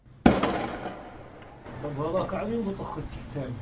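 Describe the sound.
A single sharp, loud blast from a sound bomb going off in a village side street, its burst fading into a dull tail before people begin talking.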